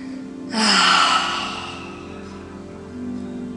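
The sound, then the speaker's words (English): A deep breath is exhaled audibly through the mouth during a guided breathing exercise: one long, airy whoosh that swells and fades, followed by fainter breathing. “Inhaling through the nose, and we're going to exhale through the mouth.”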